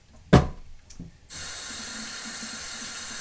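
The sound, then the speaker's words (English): Running tap water as lettuce is washed under the faucet at a kitchen sink, preceded by a couple of sharp knocks, then a steady, loud, even rush of flowing water. “Nevertheless, it keeps you entertained while I'm washing lettuce.”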